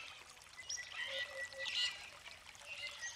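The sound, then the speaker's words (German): A small brook babbles over tangled water plants and small rocks, a faint, continuous trickling and splashing with light bright spatters. “Ein kleiner Bach schlängelte sich am Weg entlang und das Wasser plätscherte fröhlich über schlingende Wasserpflanzen und kleine Felsen.”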